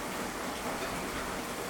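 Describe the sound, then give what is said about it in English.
Steady rain makes an even, dense hiss with no distinct drops standing out. It stays moderately quiet and unchanging throughout, with no voices. “Yeah, it's raining pretty effectively.”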